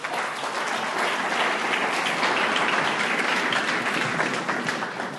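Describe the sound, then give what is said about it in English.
Applause from the audience at a recovery group meeting, a dense, steady wash of clapping that holds at an even level for the whole stretch with no talk over it. “Let's give Marion another hand.”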